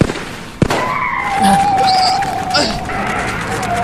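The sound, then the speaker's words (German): A sharp bang as a car tire is shot out, followed by a long, high tire squeal from the skidding car over steady low road and engine rumble. “Die haben mir den Reifen zerschossen!”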